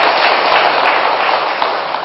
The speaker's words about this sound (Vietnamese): Học trò biết ý ha. Kẻ sướng người vỗ tay, làm cho thầy nói tiếp nữa.